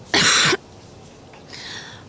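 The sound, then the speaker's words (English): A woman's single harsh, dusty cough, loud and abrupt, followed after a pause by a softer, breathy rasp. “She let out a dusty cough.”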